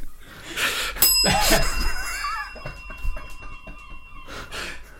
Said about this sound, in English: If I press this bell, will you stop?